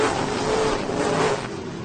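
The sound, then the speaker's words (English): Race cars roar as a race begins on an oval track, a dense, continuous engine roar that holds steady and eases slightly toward the end. “Flamborough, but we're about to go racing. Green flag is in the air. Here we go.”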